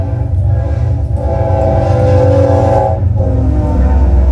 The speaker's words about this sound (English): I live right by the train tracks. So if you hear that in the background, you know what's up. But I'm not gonna let the train, I never let the train stop me